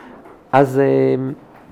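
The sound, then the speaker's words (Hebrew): A door creaks shut with one drawn-out, steady tonal squeal lasting under a second, rising sharply in loudness and then fading, with faint voices around it. “אפשר לסגור הדלת ככה”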